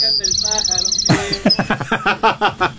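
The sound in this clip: Small birds chirping in a fast, high-pitched run of bright repeated notes, then people talking over a softer continuing chirp.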